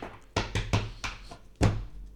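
A tarot deck of about 150 cards is tapped against a surface and cut into three piles. It makes a quick series of dull, soft thunks followed by a heavier knock.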